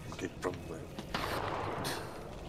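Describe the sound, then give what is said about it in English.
Gunshots fire in a video game: a few short, sharp bursts early on, then louder, rougher blasts that hold for a moment before trailing off. “As he shoots at the Karasu.”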